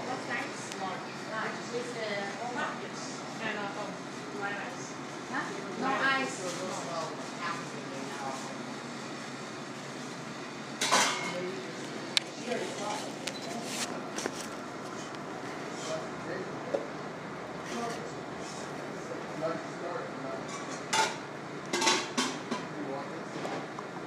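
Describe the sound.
Ambience inside the Wonder Bakery café, with a steady murmur of voices, soft clatter of dishes and cutlery, and a few sharper clinks standing out near the middle and toward the end.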